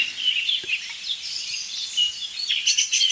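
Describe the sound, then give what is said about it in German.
A song thrush sings bright, repeated high phrases, with a blackbird's lower song behind it. “Boah, jetzt ist Singdrossel. Und Amsel. Das ist alles Singdrossel, dahinter ist die Amsel. Das ist tiefer als die Singdrossel.”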